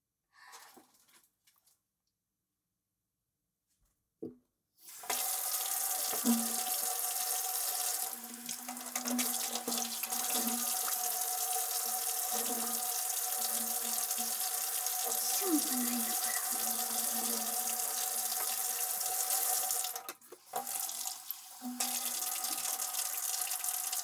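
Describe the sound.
Water runs from a tap into a sink while a spoon is washed. The flow is steady and continuous after a short quiet start.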